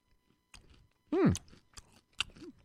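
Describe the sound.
Crunchy chewing of coffee-flavoured peanut M&M candies, a few crisp bites and mouth clicks with short pauses between them, plus a brief hummed voice sound in the middle.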